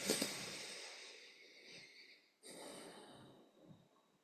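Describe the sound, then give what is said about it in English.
A deep breath drawn in, a long, soft, airy rush that fades gradually, followed by a second breathy stretch of similar length. “Taking a deep breath in.”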